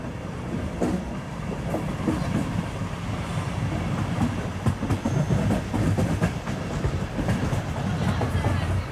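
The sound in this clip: Train arriving at Kiliti station in Budapest, a continuous rumble of rolling wheels with rhythmic clickety-clack and scattered sharp metallic knocks, holding a fairly even loudness.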